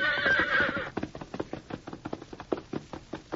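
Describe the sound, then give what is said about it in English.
A thoroughbred horse on open rangeland gives a bright whinny, then breaks into a trot, its hooves striking in a steady, even clip-clop rhythm of many beats. “Eagerly, the thoroughbred trotted forward, covering the wide expanse of rangeland with long,”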